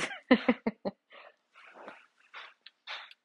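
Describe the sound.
Dogs make noise in the background, starting with a rapid run of sharp, loud yelps and barks and then trailing into several softer whines and huffing sounds spaced apart, with no talk over them.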